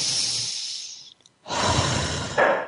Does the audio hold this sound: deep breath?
yes